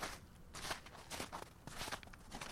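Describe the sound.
Footsteps walk across the floor of a small food drop-off operation, a steady run of many crisp, evenly spaced steps with no talking.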